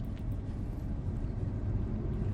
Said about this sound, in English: It's a classic case of Los Angeles traffic that's taking place right now.